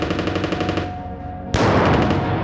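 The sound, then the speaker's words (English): Machine gun fire from the ruins of a farmhouse, a rapid, steady stream of harsh, loud shots that swells into a denser, brighter burst partway through, with no voices. “A machine gun opened up on us from the ruins of a farmhouse”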